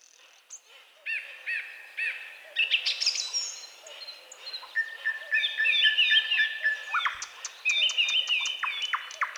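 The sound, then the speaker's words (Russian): A song thrush sings a clear, varied run of bright whistled notes and short phrases, several of them repeated in quick succession, with no other sounds around it. “Но поет певчий дрозд замечательно.”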